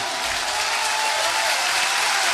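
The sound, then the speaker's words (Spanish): Audience applause for a band of musicians performing at a live event, a dense, steady wash of many hands clapping at an even loudness throughout, with no voices standing out. “vamos a pedirle con el respeto de ustedes el aplauso que sea más caluroso de estos músicos que nos están acompañando.”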